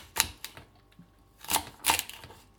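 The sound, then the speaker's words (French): Knife chopping chard stalks into large chunks: a few sharp, dry knocks at irregular intervals, the later pair louder, with no voices. “Ensuite, on coupe les côtes en gros tronçons”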